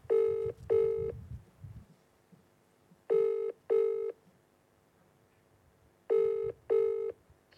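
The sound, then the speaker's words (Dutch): Ringing tone of an outgoing telephone call, three pairs of short, buzzy electronic rings separated by long quiet gaps, over faint low background noise. “Zullen we dus allemaal gaan vragen hoe het met hem gaat? We gaan hem bellen.”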